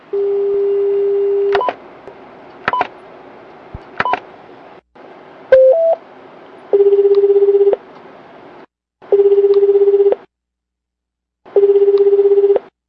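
Telephone dialing of the emergency number 110: a steady dial tone, three short keypad beeps, a brief connecting blip, then three evenly spaced ringback tones of about a second each, separated by pauses.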